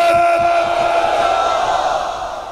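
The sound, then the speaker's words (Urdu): A crowd chants the religious slogan Labbaik at a gathering, many voices joined in a sustained, droning unison shout that stays loud and then tails off slightly toward the end. “ابھی یہ لبیک نعرہ لبیک لبیک نعرہ لگا رہے تھے، ساتھی تھوڑا کم بول رہے تھے”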